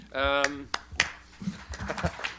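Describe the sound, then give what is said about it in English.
Sparse hand claps from a small audience at a panel discussion, a few sharp scattered claps rather than a full ovation, with a voice talking over them. “Thank you for the thunderous applause.”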